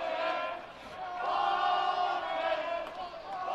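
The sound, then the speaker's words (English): Sunday baseball crowd chanting at the pitcher, a dense mass of sustained voices rising and falling together in steady waves throughout, loud and continuous without a break. “And some of this Sunday crowd trying to chant a little bit, get into the ears of Tyler Worley.”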